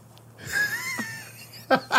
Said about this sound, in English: And that's my breath, and that's my beard. And my beard's rubbing on your face.